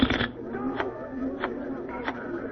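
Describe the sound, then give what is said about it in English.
Playing cards being shuffled for a blackjack game, heard as a low mechanical whir broken by a few evenly spaced rasping bursts, fairly quiet, with no voices. “Please wait while I shuffle the cards.”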